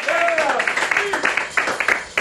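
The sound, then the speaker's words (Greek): Basketball crowd applauding the son of the Olympiacos basketball club's director, with sharp, uneven bursts of clapping under steady talking. “αυτό που ακούτε είναι για τα χειροκροτήματα, είναι για το γιο του Νίκου του Λεπενιώτη, του διευθυντή της ΚΑΕ Παναθηναϊκού.”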